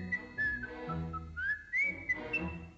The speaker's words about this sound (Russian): Слышите, какой свист? Прямо соловей.